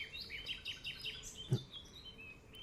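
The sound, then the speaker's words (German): A finch sings a faint, rhythmic series of quick, high chirping notes, repeated as a short phrase over soft outdoor background noise. “Der ist ein Fink. Hörst du ihn?”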